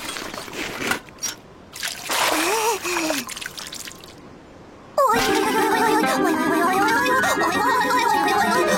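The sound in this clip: Bursts of splashing as cold water from a bucket is poured over a person, then a steady loud rush of water, with people talking.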